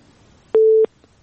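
Telephone busy tone after a dropped call, a single short, steady mid-pitched beep standing out against near silence.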